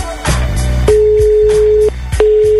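A telephone call rings while waiting for an answer, with steady ringback tones that hold for about a second and are broken by short gaps, loud and clear.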